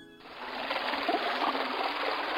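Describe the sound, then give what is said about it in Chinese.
Clear spring water flowing in a small stream, with a steady, even babble and trickle that holds throughout. “一股清澈甘甜的泉水吸引约翰向小溪上游走去。原来水是从一颗核桃壳里喷射出”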